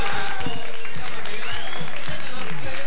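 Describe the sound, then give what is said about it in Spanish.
Loud, steady audience applause fills the air as contestants representing towns of Jujuy are presented, with a voice speaking over the continuous clapping. “che, fuerte los aplausos.”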